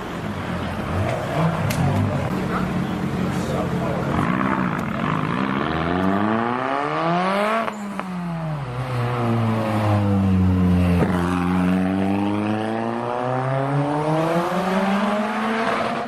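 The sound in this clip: A Nissan Sunny GTI-R four-wheel-drive car with a two-litre engine and a large rear wing revs hard and continuously. Its engine note climbs steadily, drops sharply, then sweeps down and climbs again.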